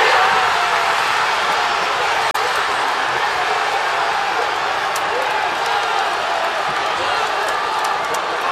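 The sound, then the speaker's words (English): Football supporters in Manchester cheer and celebrate a winning World Cup goal, a dense, steady crowd roar that stays loud and unbroken throughout. “That's the sound of supporters celebrating in Manchester as Harry Kane scored the winner.”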